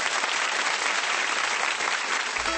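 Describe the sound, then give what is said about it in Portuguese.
Studio audience applauding during a televised Brazilian singers' music program: dense, steady clapping that stays loud and even throughout, with no voices over it. “Pode aplaudir mesmo”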